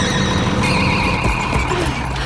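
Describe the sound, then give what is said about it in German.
A mowing machine is brought to a halt, giving a sustained high squealing whine with steady ringing tones above a low mechanical rumble, holding at an even loudness throughout. “So konnte sie die Mähmaschine rechtzeitig stoppen”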